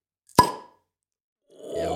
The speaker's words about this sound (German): Ich mache mir erstmal ein Bierchen auf. Mal gucken, ob der Plöpp diesmal auch was kann.